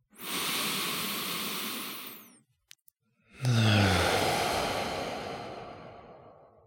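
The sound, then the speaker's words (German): Deep breathing at the close of a meditation: a long, airy inhale, a brief pause, then a longer, slowly fading exhale that opens with a soft voiced sigh, calm and moderately quiet. “lass uns nochmal zum Abschluss von dieser Meditation tief durchatmen, tief ein und aus.”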